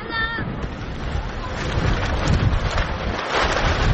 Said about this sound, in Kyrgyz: Удурган шамал жападан жалгыз башпаана эсептелген түркүн түстөгү чатырларды далбактатып учуруп кетчүдөй туюлат.